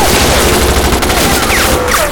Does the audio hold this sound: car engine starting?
no